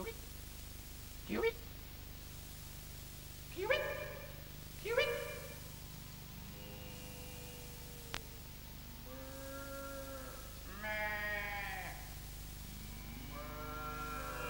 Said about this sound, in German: Wo es nur steckt. Es blökte doch so nahe.